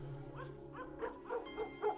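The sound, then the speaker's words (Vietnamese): A yellow dog gives a quick series of short, high yips and barks. They come in a fairly even rhythm and are faint. “Con chó vàng bỗng nhiên gầm gừ sủa lên.”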